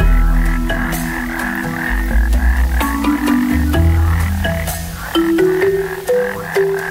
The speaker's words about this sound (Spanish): El sapo de caña es un enorme sapo terrestre nativo de Sudamérica y Centroamérica.